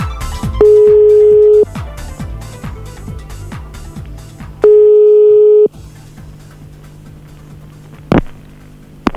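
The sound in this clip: Telephone tones sound during a redial. Two steady, single-pitched tones, each about a second long, are separated by a pause over a background of other decaying sounds. A sharp click comes near the end.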